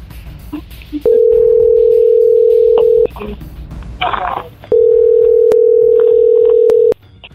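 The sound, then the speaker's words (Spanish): Telephone dialing tones from a call being placed, two long steady mid-pitched tones of about two seconds each separated by a short gap with faint background noise and brief murmuring between. “Vamos a marcar otro lado, otro lado, otro lado.”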